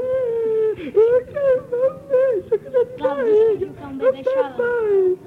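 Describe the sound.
A voice imitates crying after a lost fight, wailing and whimpering in wavering, bending pitches through drawn-out sobs broken by short pauses.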